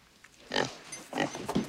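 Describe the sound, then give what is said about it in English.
Grunting oinks from a female pig on a farm, a few loud, rough bursts with short gaps between them, heard alone without talk. “She's a fine pig is what she is.”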